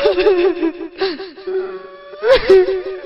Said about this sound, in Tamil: அதே அழுகுரல் கேட்டது.